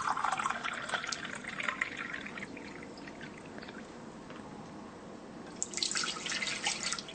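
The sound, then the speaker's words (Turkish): Water pours from a container into a cooking pot for red lentils, a steady splashing trickle that grows louder and brighter near the end. “Bu doldurduğum sularımızı tenceremize boşaltıyorum şu anda.”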